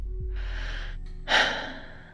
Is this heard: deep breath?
yes